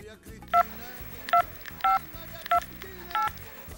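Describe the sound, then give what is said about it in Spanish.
Five short push-button telephone tones as a number is dialed, spaced at a steady, unhurried pace over a low, continuous background. “Un momentito que voy a hacer una llamada.”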